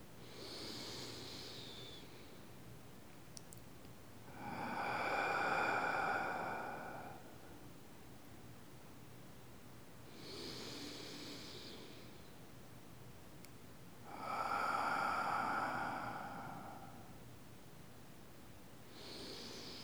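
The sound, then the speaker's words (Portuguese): Deep, slow breathing, drawing air in through the nose and letting it out through the mouth: a few long airy breaths, each swelling and fading, with softer breaths alternating with fuller, louder ones and quiet pauses between. “E vamos juntos respirar profundamente, inspirando pelo nariz e soltando o ar pela boca.”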